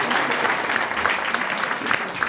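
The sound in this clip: Audience applause welcomes a guest onto a quiz show, with dense, steady clapping that holds at an even loudness for the whole stretch and has no voices on top.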